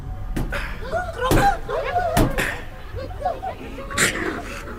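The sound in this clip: A few heavy, resonant knocks on bronze panels, struck by hand on a pedestal, land at irregular intervals among other sounds and voices.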